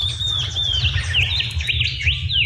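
A shining bronze-cuckoo calls with many thin, high chirps and short whistled notes in quick succession, some sliding up and down, over a steady low rumble.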